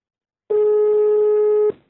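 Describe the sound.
A telephone ringback tone after dialing a call: a single steady, buzzy tone held at one flat pitch for just over a second, loud and alone, then cutting off cleanly.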